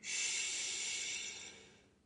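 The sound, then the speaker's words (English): A single slow belly breath makes a soft, airy hiss that holds steady for over a second and then fades gradually into silence. “So, for example, belly breathing, three in,”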